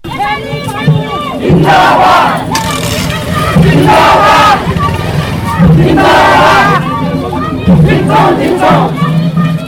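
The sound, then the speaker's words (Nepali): An election rally procession in the street, with crowds accompanying party candidates to file their nominations, band music and chanted slogans: loud massed chanting rises in repeated surges every couple of seconds over a constant roar of voices. “माओवादीको वाम गठबन्धन र काङ्ग्रेसका उम्मेद्वारी दर्ता गराउन आउँदा बाजा गाजा र नारा जुलुसले सडक नै जाम भएको थियो। सुनौ यसै चहल पहललाई समेटेर तयार पारिएको यो रेडियो”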